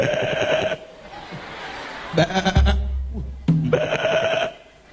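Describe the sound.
A human voice imitates a female goat's bleat, giving a few nasal, quavering bleats separated by short pauses, with chuckling in between.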